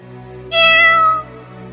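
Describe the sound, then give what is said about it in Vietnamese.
A black cat gives a single clear, tonal meow lasting under a second, heard alone over a steady low hum. “con mèo đen kia lại kêu một tiếng”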